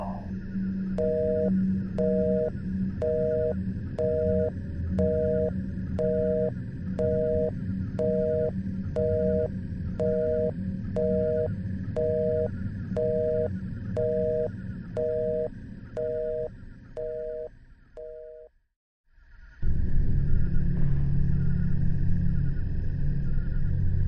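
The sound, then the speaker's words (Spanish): A telephone busy tone after a call disconnects: a long run of short, evenly spaced mid-pitched beeps over a low hum, then a brief drop to near-silence before the hum returns, louder, without beeps. “dijo el hombre en la línea, y en ese momento, la llamada se desconectó.”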